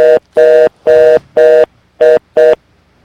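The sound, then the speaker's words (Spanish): A pulsed telephone tone sounds on the line after a dropped call: six evenly pitched, steady bursts separated by short silences, loud and alone with no voices. “Se cayó la llamada.”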